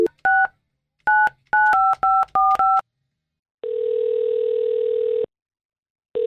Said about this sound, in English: We're calling Miranda right now